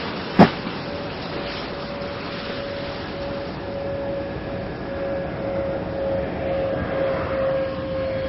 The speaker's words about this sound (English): And nose gear touchdown. Discovery's rolling out on runway 33 at the Kennedy Space Center, completing 189 orbits of the Earth.